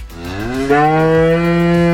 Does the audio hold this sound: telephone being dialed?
no